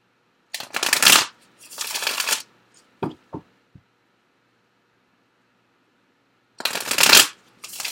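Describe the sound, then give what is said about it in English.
Cards are shuffled and drawn from a deck: two rustling shuffle bursts, three soft taps as cards are laid down, then another brisk shuffle, with no talking. “Let me get a card in the area of physical intimacy for you. And then I'm going to get some additional cards. And some of these other cards.”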